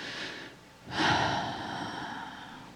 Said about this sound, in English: And another breath.